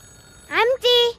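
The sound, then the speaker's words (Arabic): A telephone ringing in a home, two short, bright tonal bursts in quick succession, the first sweeping upward in pitch and the second held level, fairly loud against near-silence. “التليفون عم يرن”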